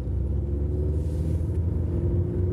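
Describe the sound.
Car driving along a road, a continuous low rumble of engine and tyres that holds at an even level with no clear changes in pace or pitch.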